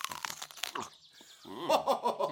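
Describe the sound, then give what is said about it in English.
Someone bites into a banana: a few quick, crisp, wet snaps come first, then a wavering, muffled tonal sound, all fairly quiet. “All right. Just take a bite.”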